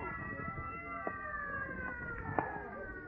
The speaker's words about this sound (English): Clear the way for the ambulance.